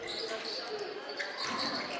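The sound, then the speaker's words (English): A basketball is dribbled on the court during a high school game between Holly Pond and West End. Faint bounces sit under steady crowd noise and a commentator's voice. “One dribble. Now he'll give it back to Walker.”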